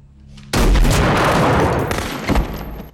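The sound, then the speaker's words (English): A burst of gunfire from an automatic weapon aimed at an intruder in a house kitchen: a quiet low hum gives way to a sudden loud, dense, sustained crackling blast lasting over two seconds, with a few sharper peaks toward the end. “shoots the intruder and checks he's dead.”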